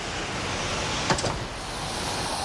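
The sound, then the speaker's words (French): An elevator descending from a cathedral's heights toward the square below gives a steady mechanical rushing hum, with a brief clatter and whir near the middle. “vers l'ascenseur pour redescendre sur terre”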